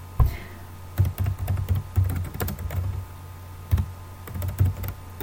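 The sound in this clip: Typing on a computer keyboard: irregular bursts of sharp key clicks, many strikes over a low steady hum, with no speech.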